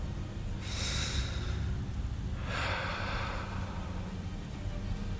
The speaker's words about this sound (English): And as you breathe, draw air into your lungs slowly.